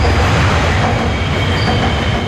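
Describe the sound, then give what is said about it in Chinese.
Metro Line 1 train roars past overhead on an elevated track beneath the approach span of a Yangtze River bridge in Wuhan, a loud, continuous rumbling rush with hissing wheel noise throughout. “在不足1公里外的黄浦大街长江二桥引桥下，地铁1号线列车从头顶呼啸而过”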